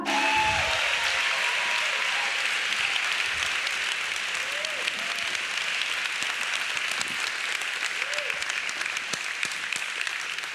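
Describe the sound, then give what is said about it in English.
Sustained audience applause welcoming a new North Durham campus pastor at a church service: a loud, dense and even wash of clapping that holds steady from start to finish. “So Summit family, at all of our locations, put your hands together and help me welcome the new North Durham campus pastor, Ricky Harris.”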